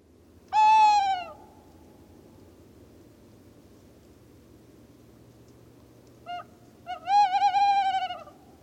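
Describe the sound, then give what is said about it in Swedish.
Tawny owl hooting: one long, low, breathy hoot, a long pause, then two short notes leading into a long quavering hoot, heard alone over a faint steady background hum. “Kattuggla.”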